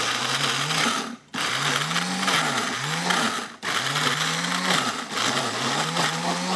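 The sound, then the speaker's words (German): A blender purees herbs, walnuts, garlic, onions and green beans: a loud, steady motor whir whose pitch keeps sagging and recovering as the blades catch the load, with two brief breaks in the noise. “So, jetzt, wir haben alles drin, wir haben Kräuter drin, wir haben Walnüsse drin, wir haben Knoblauch drin, Zwiebeln und die grünen Bohnen. Und jetzt mixen wir kurz, gell?”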